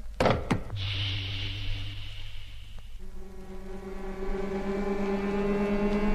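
Pumps start up to fill a tank in a ship's hold, setting off a steady mechanical whirr after a couple of sharp clicks. Midway the drone shifts to a layered, higher humming tone that holds to the end.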